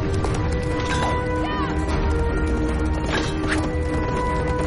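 A horse gallops through a forest as its rider flees pursuers, its hooves drumming in a quick, steady rhythm that stays loud and continuous throughout.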